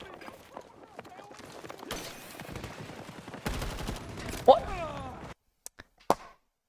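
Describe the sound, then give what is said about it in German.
Video game gunfire: rapid bursts and single shots in a busy, shifting mix, with people talking over it and a few sharp shots after a sudden drop in sound. “ich habe aufgehört zu schießen, weil ich dachte, er ist dead. Aber aus irgendwelchen Gründen hat nicht alles gehittet oder ich habe nicht richtig getroffen.”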